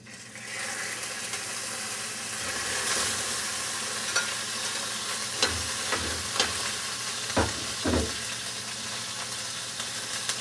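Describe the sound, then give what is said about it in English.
A pound of hamburger meat fries in vegetable oil in a frying pan, giving a steady, loud sizzle throughout, with a few soft knocks and scrapes of stirring in the second half. “After you've added this vegetable oil, you're going to be adding 1 pound of hamburger meat to cook.”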